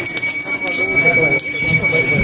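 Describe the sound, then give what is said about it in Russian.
A theatre-style third bell rings before a performance, a steady, bright, high-pitched electric ring that holds unbroken for the whole stretch over a dense, busy background. “Третий звонок, как в театре.”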